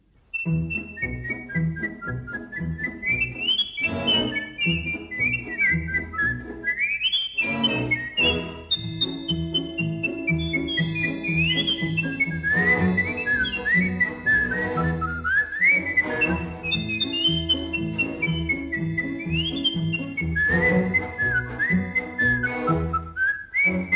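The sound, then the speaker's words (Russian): A person whistles a lively, wandering tune, with clear high notes sliding up and down in quick phrases over a low, rhythmic background for the whole length. “Свистел таким образом,”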